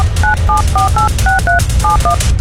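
Telephone keypad tones as a number is dialed: eight loud, brief beeps in quick, slightly uneven succession, each a crisp dual-pitched electronic tone, over a low steady hum.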